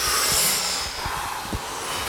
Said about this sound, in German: Tief einatmen. und wieder ausatmen.